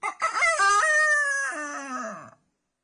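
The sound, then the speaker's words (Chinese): A rooster crows outside a window: one long, loud crow lasting a little over two seconds, its pitch stepping up in stages, holding high, then dropping away at the end. “鸡又叫了。”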